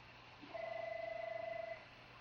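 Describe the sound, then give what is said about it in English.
A telephone rings faintly in the background, one warbling, trilled burst of a bit over a second over a steady low hum. “We're just going to let the phone ring in these podcasts because we don't know how to work the computer very well.”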